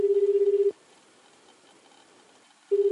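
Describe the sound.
Telephone ringing tone: a steady, pulsing mid-pitched tone in two bursts, one at the start and one at the end, with a quiet gap between them.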